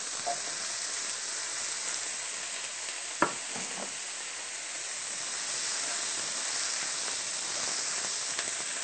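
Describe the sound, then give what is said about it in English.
Onions and peppers sauté in a pan, giving a steady, moderate sizzling hiss; a single sharp tap cuts through about a third of the way in. “After a few minutes, you can go ahead and add your peppers and vegan sausage.”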